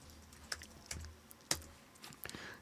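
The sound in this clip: Quiet clicks of a computer keyboard as someone types a web search, a few sparse keystrokes spread out with pauses, ending in a short quick cluster of taps.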